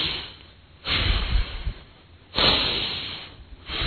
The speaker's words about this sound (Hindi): गहरा सांस भरेंगे, जब आप फास्ट कर रहे हैं तो सांस गहरा नहीं भर पाएंगे, इसलिए फास्ट नहीं करना है, गहराई से सांस भरना है।